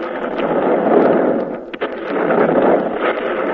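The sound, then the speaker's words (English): Sustained roaring, crackling noise from grenades exploding in a wartime setting, loud and dense throughout with one brief dip midway, with no distinct separate blasts. “we will explode grenades here to make it look right.”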